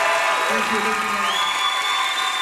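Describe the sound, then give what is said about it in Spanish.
Concert audience applauding and cheering for the musicians: dense, continuous clapping with occasional whoops, heard under a speaking voice. “Sí, quiero que aprovechamos y le damos un fuerte aplauso, sí, a mis músicos.”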